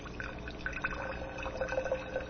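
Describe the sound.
Homemade wine poured slowly through a sieve to strain off the sediment: a steady trickle and splash of liquid with faint drips, continuous from start to end.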